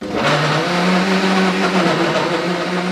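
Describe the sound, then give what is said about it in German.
Blender pureeing peaches, a loud, continuous motor whir with a steady low hum under a rough, churning roar that runs throughout without talk. “jetzt pürieren wir die Pfirsiche. Genau, die werden jetzt wieder püriert.”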